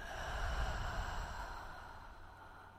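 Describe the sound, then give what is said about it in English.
A gentle, slow breath during a guided meditation, soft and airy, swelling and then fading away alone. “connecting to the element of water, connecting to your creative forces. Gentle breath in and out.”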